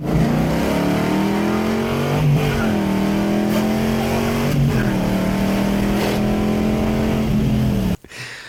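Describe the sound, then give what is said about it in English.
A stock car-engine sound effect of a vehicle being gunned to take off gives a loud, sustained roar that climbs in pitch, dips at a few shifts and climbs again, then cuts off abruptly near the end. “Ozark, and they drive a 2015 Honda Odyssey minivan. And he gunned it to take off.”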